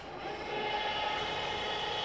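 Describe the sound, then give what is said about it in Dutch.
An oven's loading conveyor slowly lifts a coffin, producing a steady mechanical hum and rumble that swells slightly at the start and then holds constant. “Nu gaat de invoerbaan zachtjes omhoog.”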